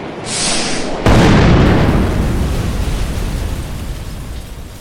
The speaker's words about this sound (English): Did you just blow up the tank with its own missiles?